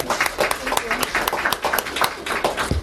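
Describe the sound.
An audience applauds to welcome a speaker: dense, steady clapping from many hands throughout, with a voice heard over it.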